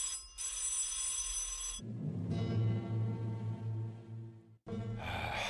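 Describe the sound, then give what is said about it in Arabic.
A telephone rings and goes unanswered: a bright, buzzing ring sounds, breaks off, then returns after a long gap filled with a low, muffled rumble. The ringing is moderately loud with no voices. “محدش بيرد على التليفون. ازاي محدش بيرد على التليفون؟”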